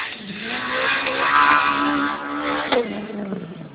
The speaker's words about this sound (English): Prokop, driving a Citroen. Very fast, very exciting.